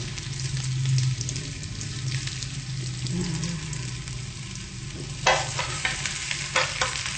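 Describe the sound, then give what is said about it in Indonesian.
Vegan meat sizzles and fries in a pan while being stirred, a steady hiss with scraping stirs and louder bursts of sizzle near the end, with no talk. “Nah, lalu baru dagingnya masukkan, daging vegan.”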